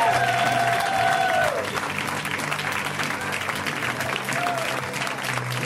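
Audience applause for a comedian taking the stage at a live comedy show: steady, dense clapping mixed with crowd noise that holds through the whole stretch, slightly louder at the start.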